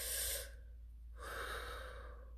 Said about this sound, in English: So I want you to take a deep breath right now. Let's just take a deep breath.